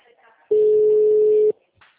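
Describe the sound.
An unanswered telephone call rings with a single steady ring tone lasting about one second, with faint voices just before and after it.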